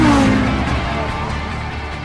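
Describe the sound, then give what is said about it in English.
Racing cars climb the hill into Druids corner at Brands Hatch. A whining engine note drops in pitch at the start, then gives way to a fading low engine rumble. “Niki Lauda is under real pressure from James Hunt as they go up the hill into Druids' corner.”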